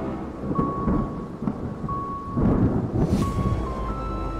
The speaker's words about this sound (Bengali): এই শব্দ বিদ্যুৎ চমকানোর শব্দের সাথে মিশে এক ভীষণ পরিবেশ তৈরি করল